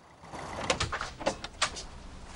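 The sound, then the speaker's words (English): A door opening: a few faint clicks and rattles of the latch and frame, clustered in the middle of a quiet stretch. “Tasha opens her door to Tom.”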